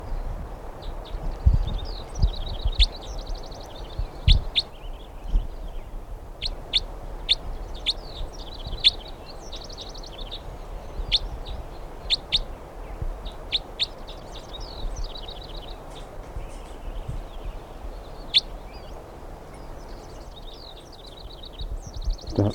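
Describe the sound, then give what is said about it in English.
A bird calls while it is being handled, giving many short, high chirps in irregular bursts over a soft steady background. There is no talk. “Recording this is bird 319 being handled.”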